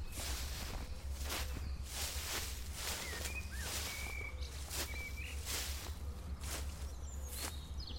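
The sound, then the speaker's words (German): Footsteps of people walking through a forest, a soft, steady rhythmic crunch of treads on the ground, faint overall, with a few thin bird chirps scattered above. “Also wir laufen mal ein kleines Stück”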